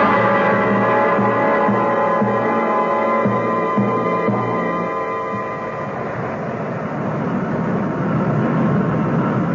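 Airplane engine drone as the aircraft comes in to land: a loud, steady, continuous hum with pulsing low tones in the first half, heard alone with no talk.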